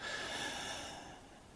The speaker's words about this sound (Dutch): En adem dan nogmaals diep in naar je flanken.